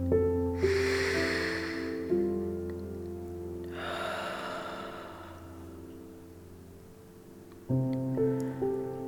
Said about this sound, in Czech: A naposled nádech a výdech.